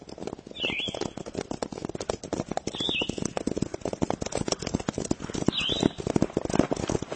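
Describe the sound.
Hooves of horses being ridden clip-clop in a dense, continuous patter, steady and fairly loud throughout, with three short bird chirps rising above it.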